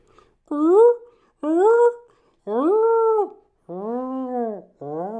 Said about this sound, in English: That's the sound of a whale.